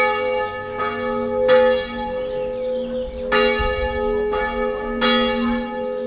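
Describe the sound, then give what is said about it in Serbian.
A Serbian Orthodox church bell rings in Sećuj for the feast of St Nicholas, a few loud, clanging strikes at an uneven pace, each leaving a long shimmering hum that overlaps the next, with no voices. “Ovako je pozivalo zvono Sećujske srpske pravoslavne crkve vernike na praznovanje letnjeg Svetog Nikole, zaštitnika svetinje.”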